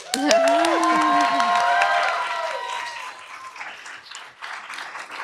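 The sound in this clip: An audience at a live legal-commentary show applauds and cheers, with a high whoop at the start. The clapping is loud for about two seconds, then thins and tapers into a softer patter.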